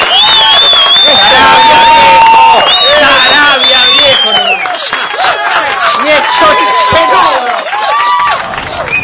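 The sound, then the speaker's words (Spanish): Audience applause and cheering in a tribute to remembered school days, with dense, continuous clapping and many excited voices shouting over it, loud and sustained throughout. “Un aplauso para el recuerdo y los chalchas en Angélica del año 1900.”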